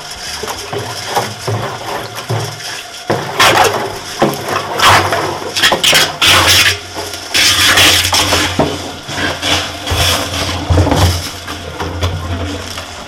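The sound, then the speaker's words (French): A rubber membrane pump churns as barrels of fruit mash are loaded into a still, a loud, irregular run of knocking, crunching and gurgling bursts that surge and ease over a low mechanical drone. “Alors, la particularité de cette pompe, c'est qu'elle ne casse pas les noyaux. C'est une membrane en caoutchouc pour éviter donc qu'il y ait des noyaux cassés dans l'alambic.”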